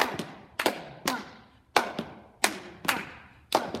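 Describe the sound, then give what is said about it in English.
Gulla clap in a dance routine: rhythmic hand clapping heard alone as a steady series of sharp, crisp claps, some landing in quick pairs, with short decays between them. “We're going to add the gulla clap, which goes like this.”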